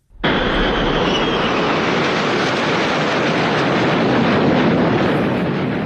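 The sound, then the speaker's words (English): Aircraft flyover above crowds lining a two-day street race course on the National Mall: a loud, steady, broad roar that sets in abruptly and holds evenly for nearly six seconds. “Of course, there were several flyovers, this one included, ahead of this spectacular race now underway.”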